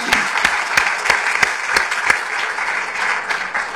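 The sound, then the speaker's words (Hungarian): An audience applauds a woman at a religious gathering. Sharp, prominent individual claps ring out in a quick, regular beat over a softer, steady bed of crowd clapping. “Give her a hand, come on. Tapsoljuk meg.”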